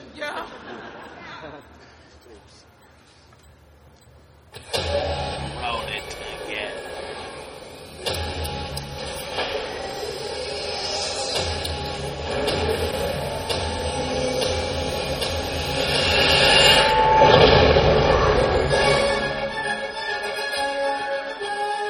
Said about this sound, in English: Yeah, so that's Millennium Falcon Smuggler's Run.